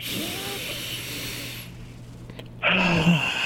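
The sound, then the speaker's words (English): A deep inhale through the nose during a guided breathing exercise gives a long, airy hiss. The hiss fades out, and after a short lull a louder burst of breath noise follows. “3, 2, 1, all the way in through the nose.”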